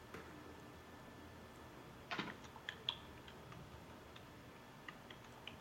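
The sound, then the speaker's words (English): A few faint, sharp clicks on a computer, likely a mouse or keys being pressed, sound in short irregular bursts over a steady low hiss. “Let me just do a quick click here.”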